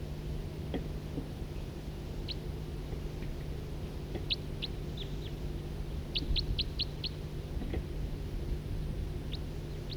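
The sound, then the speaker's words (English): Two birds calling with two different call types: brief, high chirps that come singly and in a quick run of five or six, fairly faint over a constant low hum. “Couple birds here, one of two different, each of two different call types.”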